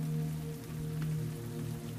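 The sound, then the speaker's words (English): Falling rain patters softly and steadily with no breaks, accompanied by a faint, constant low hum underneath. “a soundtrack of falling rain and a crackling fire usher you to sleep”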